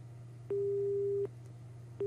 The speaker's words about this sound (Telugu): Asmita phone చేసింది బెల్గాం బెల్లూరు నుంచి, మరి తన ఫోన్ లైన్ కట్ అయినట్టుంది.